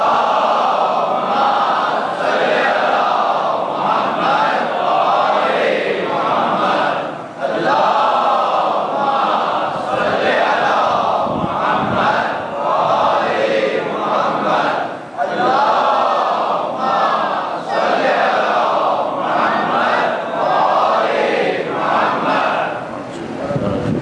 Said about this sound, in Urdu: تین دفعہ باواز بلند درود بھیجیں